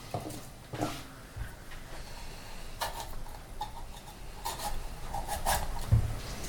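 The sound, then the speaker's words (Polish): A knife slicing through a large bell pepper, giving a few faint, crisp cutting strokes spread unevenly over a soft rubbing background. “Papryka się kroi.”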